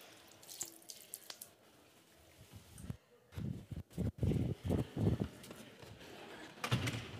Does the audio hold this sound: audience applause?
no